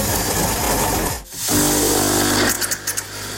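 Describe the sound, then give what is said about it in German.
A coffee machine brewing coffee gives off a loud, continuous mechanical buzz and hum. It dips briefly partway through, then resumes and ends with a few uneven sputtering bursts. “Nen Kaffee. Selbst wer so ein Gerät nicht zu Hause hat, der Sound ist unverkennbar.”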